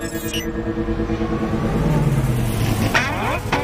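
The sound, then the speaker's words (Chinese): Remote-control cars converted to self-driving run with a steady buzzing motor whine and layered tones, ending in a short burst of rougher, sweeping mechanical noise. “哎，这不是我们之前用过的遥控车吗？ 没错，但不三不四把他们改成自动驾驶了。”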